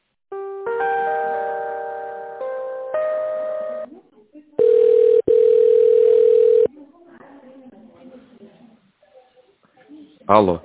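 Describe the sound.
A telephone ringing tone plays while a call is transferred. Two bursts of a layered electronic chime lead into two long, loud, steady tones, then quieter voices talk and a short rising tone ends it.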